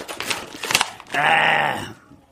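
Packaging of a vegetable spiralizer being torn open: a few short crinkling bursts, then a louder sustained rip lasting under a second that fades to quiet.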